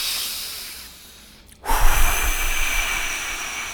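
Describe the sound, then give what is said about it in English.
A big, long, forceful exhale, the 'dragon breath' of a calming breathing exercise for children, bursts in suddenly after a quiet stretch and sustains as a loud, rushing hiss for over two seconds. “Big, long, fiery exhale. Get all that tension out.”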